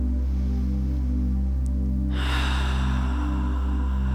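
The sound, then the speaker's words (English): A deep breath drawn in through the nose, then a big audible sigh, during a guided Earth Day meditation. The inhale is faint, and the breathy sigh swells strongly halfway through, all over a steady low hum. “And just taking a deep breath in through the nose with a nice big sigh.”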